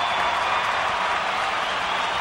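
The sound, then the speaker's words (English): Audience applause, a steady, continuous patter of many hands clapping at a moderate level, holding evenly from start to finish without individual claps standing out. “So a big round of applause”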